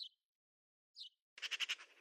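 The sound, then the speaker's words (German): Eurasian magpie chattering: two short, high calls, then a harsh, rapid rattle of about six or seven clipped notes at the end. “Dieses Geschnatter erkennt man sofort. Wir haben hier die Elster entdeckt.”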